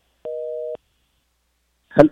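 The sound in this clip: A telephone line tone after a call disconnects: one steady beep lasting about half a second, then silence and a brief voice.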